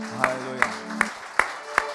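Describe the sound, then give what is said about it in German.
A church audience claps together in a slow, steady rhythm, five sharp, evenly spaced claps over a held voice. “Dá uma salva de palmas ao Senhor. Geben wir doch unserem Herrn einen Applaus.”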